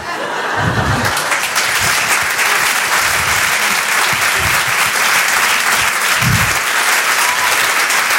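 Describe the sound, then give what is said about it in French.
Sustained audience applause for a comedian at a comedy club show, loud and steady for about eight seconds, with a few brief low thumps and scattered laughter mixed into the dense clapping. “Vous pouvez l'applaudir très très fort, Flora Amara sur Rire et Chanson.”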